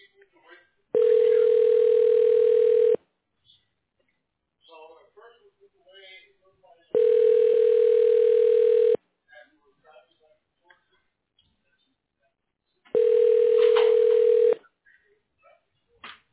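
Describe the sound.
Telephone ringback tones sound during a call transfer: three long, steady, buzzing tones of about two seconds each, separated by quiet gaps with faint, scattered line sounds.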